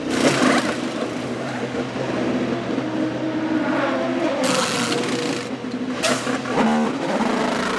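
Pneumatic wheel guns fire in a few short, harsh bursts over a steady, dense roar of engines during an IndyCar pit stop, the sharper blasts bunched toward the end.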